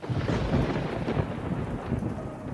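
Thunder rumbles through a storm with rain: a dense, continuous low roar that swells and eases slightly, with steady rain hiss underneath.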